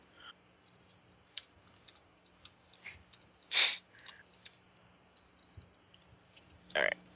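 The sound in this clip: Irregular keystrokes on a computer keyboard: a scattered run of sharp, faint clicks with uneven pauses and one longer, louder burst midway, and no talk over them.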